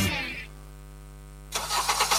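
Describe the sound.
A car engine starting: a steady low hum runs for a moment, then a loud, rough roar bursts in as the engine catches and keeps running.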